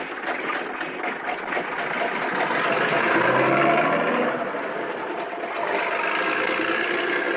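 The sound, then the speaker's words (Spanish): A convertible car drives up along a dirt road and brakes in an old film scene, heard as a steady, rough engine drone that swells slightly in the middle and then continues evenly. “El hombre frena a la altura de la mujer, la cual sube al vehículo y se marchan.”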